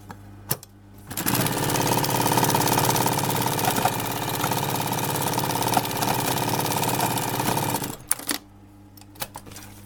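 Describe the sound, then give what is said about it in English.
A compound feed (unison feed) sewing machine runs steadily for about seven seconds, a fast, dense mechanical chatter with a constant hum. It starts abruptly and stops abruptly, with only faint handling sounds before and after. “So that's a compound feed machine. Unison feed is another name for it.”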